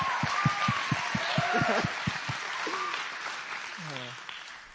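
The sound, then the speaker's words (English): Applause from a graduation ceremony audience: a steady wash of clapping with a few whistle-like tones and a whooping cheer near the end, with some rhythmic thumps early on. “let's give them all a round of applause”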